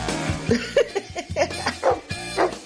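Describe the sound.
A dog gives a quick, irregular run of short barks and yips, several sharp bursts packed close together over a steady low background.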